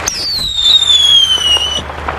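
Fireworks being shot off, with a loud whistling shell whose high tone slides slowly downward for nearly two seconds over a dense, steady roar of noise.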